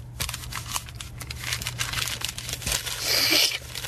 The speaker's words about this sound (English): Well, we'll just pull this letter up real nice. Put it in an envelope.